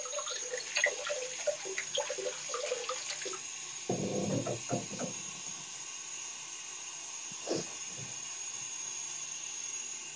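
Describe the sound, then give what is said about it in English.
Water runs from a faucet into a container as a faint, steady hiss. A fuller rushing stretch comes partway through, then the flow settles back to a soft, even trickle. “Let me put some water in this.”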